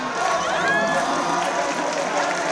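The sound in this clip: Hall audience cheering and acclaiming Ousmane Sonko as he takes his seat as president of the National Assembly, a dense, steady roar of many voices that holds throughout.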